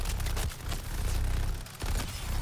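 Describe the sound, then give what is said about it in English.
Rapid gunfire from Black Mask's Bulletstorm effect in the video game Suicide Squad: Kill the Justice League, a dense, continuous roar of overlapping shots with a couple of brief dips, no voices. “Shark's loadout here includes Black Mask's Bulletstorm and the Heatwave's Molten Shield to synergize. He has triggered the Bulletstorm effect, which means that he's now immune from damage thanks to the Heatwave's Molten Shield”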